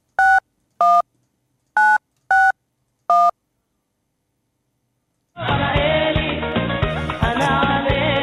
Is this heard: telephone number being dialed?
yes